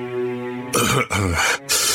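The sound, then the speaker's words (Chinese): A narrator's voice imitates a character's dry cough and throat-clearing. A brief voiced hum comes first, followed by a few loud, rough bursts of coughing separated by short gaps. “他干咳了两声道”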